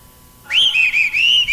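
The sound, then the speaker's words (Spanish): A person whistles alone: one loud note sweeps upward, then holds a high, wavering tone broken by a few brief gaps. “Ahí sale. ¿Quién le quieren mandar su silbidito para iniciar este espacio?”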